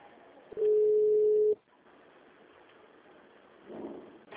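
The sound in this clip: A telephone line rings while a call goes through an office switchboard to an extension. One steady, low, buzzing ring tone lasts about a second over faint line hiss, followed by quiet line noise and a soft murmur.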